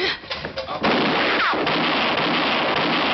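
A gunshot goes off in a radio drama standoff: one sudden, loud blast followed by a long, rough, rumbling roar.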